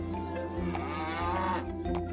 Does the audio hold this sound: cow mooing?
yes